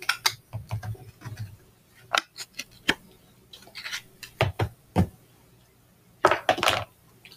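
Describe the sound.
Opening a plastic food container brings a series of sharp clicks and crackling snaps in quick, uneven bursts, with short pauses between the louder pops.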